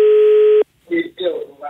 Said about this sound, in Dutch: We hebben eens geprobeerd te bellen met deze bevindingen naar dat bedrijf.